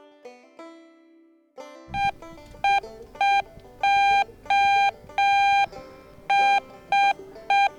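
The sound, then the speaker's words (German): Morse code SOS beeps sound beside a harbor museum: a run of short and longer electronic tones at one steady mid-high pitch, spaced in an uneven on-off pattern over a low, continuous rumble. “das heißt SOS. Und der Buchstabe S ist im Morsealphabet dreimal kurz, der Buchstabe O ist dreimal lang und der Buchstabe S ist wieder dreimal kurz. Okay, das machen wir jetzt mal.”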